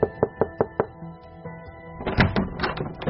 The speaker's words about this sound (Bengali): কাঠে সিঁড়ি বেয়ে উঠে দরজায় টোকা দিল মিতি